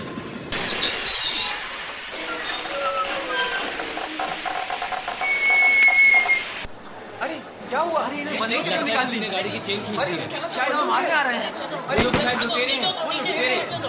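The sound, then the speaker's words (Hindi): A passenger train running on rails shortly after leaving Kakori station, with its emergency chain pulled: a loud, steady rumble and hiss with a thin high squeal, giving way to many agitated voices chattering over the train. “गाड़ी के Kakori station से छूटने के कुछ देर बाद ही जंजीर खींच दी”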